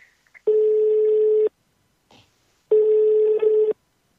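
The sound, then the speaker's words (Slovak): Telephone ringback tone heard while calling someone: two long, steady buzzing tones, each lasting about a second, separated by a pause with a faint short click. “budeme volať Emilovi, ja dúfam”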